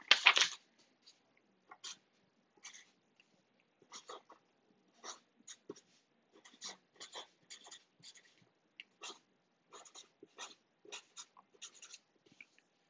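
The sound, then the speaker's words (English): A pen scratches on paper in many short, quiet strokes, beginning with a louder burst and continuing as sparse, irregular scrapes separated by silence. “And that's what I'm going to write on my triangle tonight. I'm going to write this down.”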